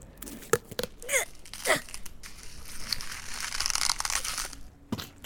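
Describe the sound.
Wet crunching and tearing of a heart being ripped from a Viking's chest: a few sharp crunches, then a long crinkling, squelching rip that ends in one last snap.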